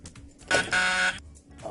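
A quiz buzzer is pressed, giving one loud, harsh electronic buzz that lasts about half a second and sounds alone with no talk.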